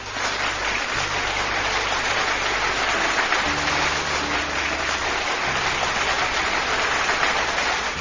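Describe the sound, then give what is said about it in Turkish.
Dense applause after a poetry reading, a continuous even wash of many clapping hands that holds a steady loudness from start to finish, with no voices over it. “Kocaman bir alkış.”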